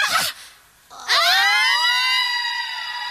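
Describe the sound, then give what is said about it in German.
Women astrologers shrieking and screaming: a short noisy burst, then a loud, shrill, sustained wailing cry that rises in pitch, holds steady and slowly fades a little. “Die Astrologinnen erheben ein derartiges Geschrei, dass halb New York aufwacht.”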